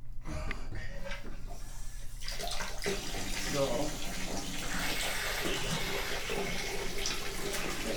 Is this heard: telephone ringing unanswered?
no